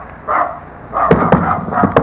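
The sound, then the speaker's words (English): A dog barks in a few sharp, loud bursts with short gaps between them, and no talk. “Get away, dog! Don't you come near me!”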